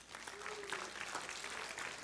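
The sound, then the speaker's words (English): An audience applauds a recently married couple with a brief burst of faint, even clapping lasting about two seconds. “Congratulate Dave and Angie. Y'all give them a hand tonight.”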